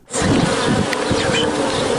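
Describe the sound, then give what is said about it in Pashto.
Honeybees at a honeybee farm make a loud, dense, continuous buzzing drone that starts abruptly and holds steady throughout. “دا د شاتو د مچیو فارم دی”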